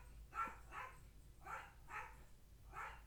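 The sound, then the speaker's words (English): A household dog barks faintly five times in an uneven rhythm, each bark short and sharp against a quiet background with no talk. “Let me just wait and see if my grandpa's dog is going to stop barking.”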